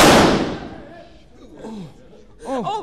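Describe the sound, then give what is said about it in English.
A single loud gunshot in a radio drama, a sharp blast that fades over about a second, followed by people's voices. “Oh, dear God. That man is shot. I didn't mean to shoot him.”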